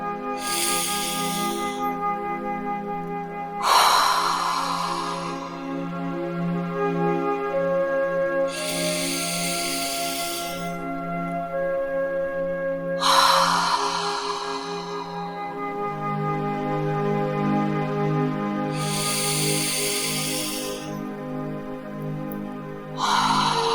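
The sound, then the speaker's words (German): Slow, deep breaths drawn in through the nose and let out through the mouth, heard as a few soft, airy rushes spaced several seconds apart over steady, quiet background music. “Und nimm dir jetzt drei tiefe Atemzüge durch die Nase ein und durch den Mund wieder aus.”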